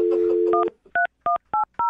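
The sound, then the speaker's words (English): A telephone is dialed. A steady dial tone gives way to five short, evenly spaced touch-tone beeps, each a clear two-note electronic chirp at similar loudness. “I'm going to dial the phone right now.”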